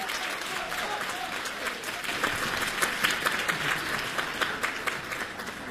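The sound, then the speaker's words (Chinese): An audience applauds as two performers are welcomed onstage for a comic crosstalk act. Dense, steady clapping from many hands continues throughout, with a few louder bursts rising from the sustained wash. “《找堂会》，我们掌声有请。 有请二位。”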